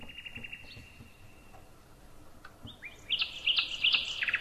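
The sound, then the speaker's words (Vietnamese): Nightingale song with thin, high whistled notes and brief chirps, then a louder run of rapid trills during the last second and a half. “Tiếng chim họa mi đấy.”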